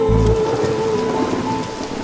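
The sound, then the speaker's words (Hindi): Rain falls with thunder: a brief low thunder rumble at the start, over a steady hiss of rain that continues without voices. “सुन सुन सुन बरसात की धुन सुन बिजली चमके लिपट गए हम”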